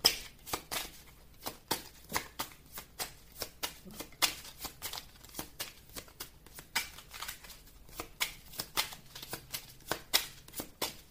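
Tarot cards are shuffled in a long run of many quick, crisp riffling and snapping bursts at an uneven pace, fairly soft throughout.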